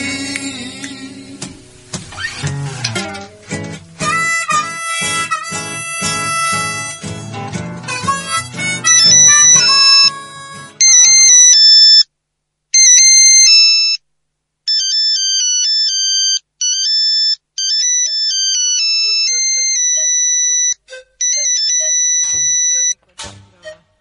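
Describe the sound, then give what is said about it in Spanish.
A vintage monophonic phone ringtone plays bright, high electronic beeps in short melodic bursts separated by brief gaps, after a busier, fuller musical passage at the start. “El ringtone vintage. Tenemos un ringtone vintage. El ringtone monofónico.”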